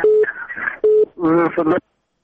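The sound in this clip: Telephone line tone on a radio call-in as a listener's call drops: two short, steady beeps alternate with a voice, and then the line goes silent.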